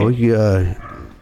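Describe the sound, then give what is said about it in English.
A dog gives one loud, drawn-out bark or yowl with a strong, harmonic voiced tone lasting under a second. A quieter tail follows it. “these dogs are going to be the fucking death of me today. I swear to God damn. It's a lot of barking.”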